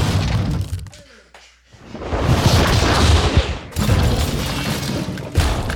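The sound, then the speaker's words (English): Giant robots fight in a city as one lands a mighty punch: a brief hush gives way to loud, crunching, thudding impacts and shattering crashes that sustain for a couple of seconds, then another heavy burst follows. “Good Robot has come in with a mighty punch, but the Robo-Dino has quickly recovered. This is a fierce battle, folks.”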